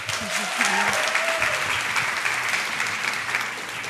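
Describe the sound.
An audience claps to welcome a speaker to the stage: a thick, even wash of applause throughout, with a brief voice heard early on.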